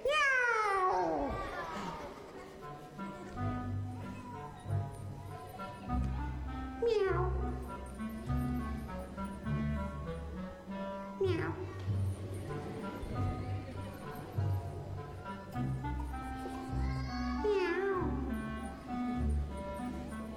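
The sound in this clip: A cat meows a few times, each call a drawn-out, sliding cry that rises and falls, heard over a steady tonal background.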